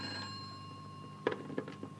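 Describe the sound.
A telephone ringing with a steady, faint electronic tone held throughout, joined near the end by a few short, louder clicks.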